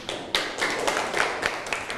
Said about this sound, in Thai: นั่งลงครับปรบมือให้เพื่อนหน่อย